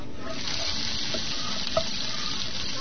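Food sizzles and fries in a pan during cooking, giving a steady, even hiss that runs unbroken for the whole stretch.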